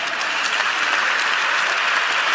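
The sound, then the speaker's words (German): Audience applause in a church, a thick, even wash of many people clapping that stays constant and fairly loud throughout, with no voices over it. “Applaus dafür.”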